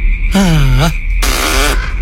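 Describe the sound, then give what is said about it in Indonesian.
A human voice imitates two loud farts, each a buzzy, droning blurt lasting about half a second. The first is lower and sags in pitch, and a short gap separates it from the second, over a constant low hum. “Kentut lagi toh ya. Aduh, pasti dia masuk angin ini.”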